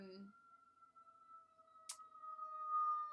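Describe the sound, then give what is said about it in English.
A faint, steady siren tone sounds on a New York street and holds level throughout. A brief voice is heard at the very start, and a sharp click occurs near the middle. “I'm just going to wait for that lovely... For the siren. Yeah. Hi, New York.”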